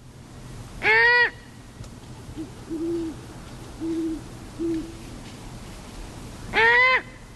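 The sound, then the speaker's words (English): A great horned owl fledgling gives two harsh, raspy screeching calls rich in overtones, while a few soft, low hoots sound between them. “And here's a fledge, a great horned fledge. Let's listen to that sound.”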